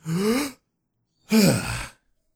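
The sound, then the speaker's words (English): A person demonstrates proper deep breathing with a short, voiced gasping breath in, a clear pause of silence, then a longer, breathy sighing breath out. Both sounds are moderately loud and stand alone without talk. “Send a signal to my respiratory center that causes me to go,”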